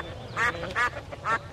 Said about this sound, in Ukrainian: Там стояв жахливий галас. Дві родини качок билися за риб'ячу голівку